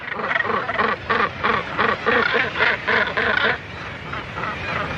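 A northern gannet nesting colony of tens of thousands of birds in the North Atlantic calls out in harsh, rasping cries. They pulse in a quick, overlapping series, then ease into a lower background chatter.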